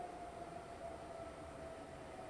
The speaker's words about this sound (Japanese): 2番線に到着の電車は堺筋本町天神橋筋6丁目方面静寂行きです。